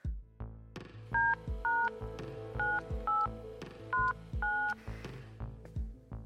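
Telephone keypad tones as a number is dialed: six short two-pitch beeps at an uneven pace, sounding over a soft backing of struck musical notes.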